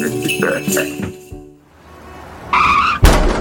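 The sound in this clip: Car skidding and crashing while merging in traffic: tyres squeal for a few seconds over engine noise, then a sudden loud impact bursts in near the end.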